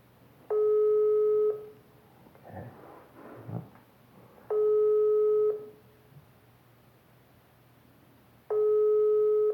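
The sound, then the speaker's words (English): Ringback tone of a phone call that goes unanswered: three steady electronic tone bursts, each about a second long and evenly spaced, with quiet gaps between them and a little faint noise in one gap. “maybe he'll notice that I call him and he'll call me back”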